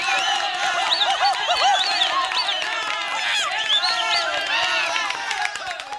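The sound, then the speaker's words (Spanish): A crowd cheers while dancing, with high whoops and shouting voices rising and falling over a steady layer of clapping. The noise stays loud and busy throughout. “¡Venga los aplausos!”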